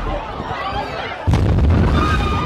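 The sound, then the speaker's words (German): A bomb explodes at the finish line of the Boston Marathon, a sudden heavy low boom at mid-clip that rolls on as a loud rumble after a noisier stretch with voices. “Aber dann explodieren zwei Bomben.”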